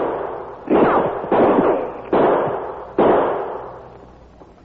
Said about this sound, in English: shots coming behind that big cottonwood tree to the right.